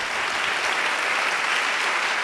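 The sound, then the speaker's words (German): Audience applause at a preacher slam event: dense, steady clapping from many hands, loud and continuous throughout with no voices standing out. “zunächst mal dürfen wir klatschen für das, was wir erlebt haben.”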